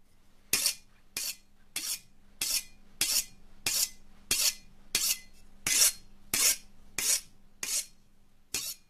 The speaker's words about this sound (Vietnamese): ông Đồng tay lăm lăm con dao, cứ thế mà mài dao xoèn xoẹt xoèn xoẹt. Trong đêm nghe tiếng mài dao đến rợn cả người.